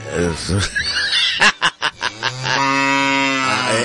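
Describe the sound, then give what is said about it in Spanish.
A goat or kid bleats loudly, first in a quick stuttering run of pulses, then in one long, drawn-out nasal bleat that holds steady to the end. “Es una chiva o chivo.”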